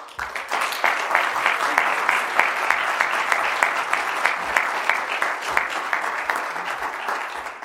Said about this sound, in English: So if you would please welcome Catherine Elizabeth Root.